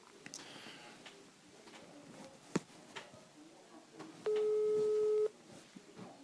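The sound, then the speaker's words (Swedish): An outgoing phone call gives a single ringing tone, a steady mid-pitched beep of about one second. It rises clearly above low background rustle and a few scattered clicks. “Ska vi ta och ringa Patrik Kihlman och lyssna in vad han tycker?”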